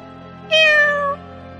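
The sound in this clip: A black cat lets out a single drawn-out meow, clear and fairly loud, over a low steady hum.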